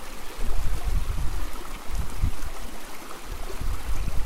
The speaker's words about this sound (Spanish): Hoy comienza la primavera y los primeros pájaros se acomodan en sus cuevas para observar pasar el agua limpia y clara.